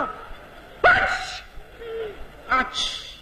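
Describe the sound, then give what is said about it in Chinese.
A person imitates a Beijing-style sneeze with sharp, loud, breathy bursts separated by a pause. “我告诉你、一会儿一打喷嚏、坏了。”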